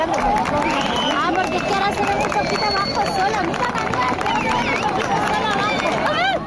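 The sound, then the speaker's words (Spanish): A crowd on the Playa de la Victoria beach in Cádiz during a historic moment: a dense, steady hubbub of many voices calling and shouting together, loud and continuous throughout. “dejándonos imágenes inolvidables y sonidos como estos en la playa de la Victoria de Cádiz”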